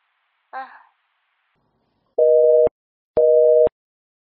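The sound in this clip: Telephone busy tone after a call is hung up: two loud, steady, mid-pitched beeps of equal length with a short gap between them, following a brief spoken syllable.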